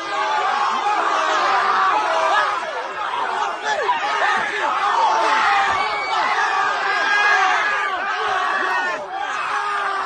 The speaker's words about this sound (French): Ça, c'est le bruit de joie d'une centaine de jeunes qui sont contents de voir 3-4 de leurs comparses frapper une personne aînée.